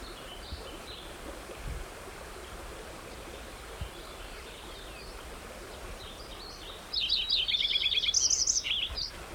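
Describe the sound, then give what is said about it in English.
White-crowned sparrow song: a short burst of bright whistled chirps and trills near the end, over a steady rushing water background with no other sounds. “White Crown Sparrow singing too.”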